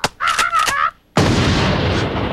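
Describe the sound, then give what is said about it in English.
A pump shotgun blasts up through a roof with one loud, harsh boom and a long, noisy, rumbling tail. A high, wavering cry comes just before it. “A monkey pumps a shotgun and shoots it through the roof.”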